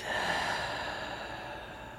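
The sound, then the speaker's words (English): A deep breath taken during a guided breathing exercise: one sustained, airy rush of breath with a soft hiss, steady and fairly quiet throughout, with no talking. “I invite you to take a deep breath in through the nose and let it out through your mouth.”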